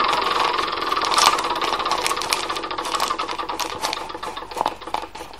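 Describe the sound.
Rapid ratcheting clicks of a spinning wheel in a video board game, a busy mechanical ticking that gradually spaces out as the spin slows.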